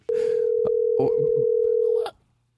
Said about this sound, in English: What am I doing? I'm dialing numbers?